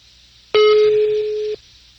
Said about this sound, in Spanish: Está marcando y luego no contesta.